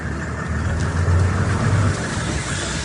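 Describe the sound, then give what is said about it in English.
An open-sided four-wheel drive safari vehicle driving through the entrance to Chobe National Park in Botswana: a steady low engine rumble with constant road noise, even in level throughout, without talk. “Your expert guide drives you through the entrance to Chobe National Park in Botswana.”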